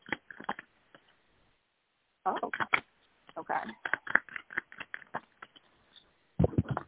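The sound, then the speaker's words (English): Oracle cards being shuffled and drawn, with quick papery riffles and taps in irregular clusters separated by short pauses. “so I pulled some oracle cards for you, too, just to let you know.”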